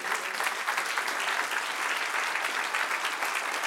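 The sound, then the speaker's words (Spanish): Audience applause during a sermon: dense, even clapping that stays at a steady moderate level throughout, with no voices standing out. “Dale un aplauso al que rey.”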